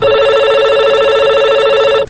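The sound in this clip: A telephone rings with an incoming call to a radio phone-in program. It is one loud, continuous warbling ring with bright layered tones that lasts about two seconds and then stops sharply.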